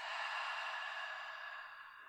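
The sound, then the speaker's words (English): A faint, airy exhale follows a big inhale during a breathing exercise, a soft, steady hiss that fades gently over about two seconds. “Exhale out the mouth. Again, big breath in. Open and release.”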